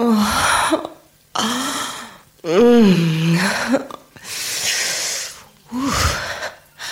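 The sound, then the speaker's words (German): Man imitating his wife moaning: several drawn-out vocal moans with wavering pitch that rises and falls, separated by brief breathy pauses. “Willst du meine Frau stöhnen hören und das bewerten?”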